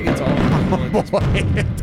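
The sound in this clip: Fireworks exploding close by in a rapid, dense barrage of loud booms and cracks that continue without a pause.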